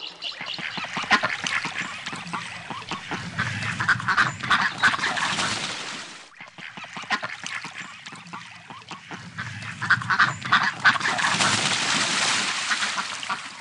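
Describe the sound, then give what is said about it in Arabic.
Dense, overlapping duck quacking at a pond, nasal calls tumbling over one another in two long bursts split by a brief lull in the middle. “بطة بطة شفناها جوا البركة محلاها”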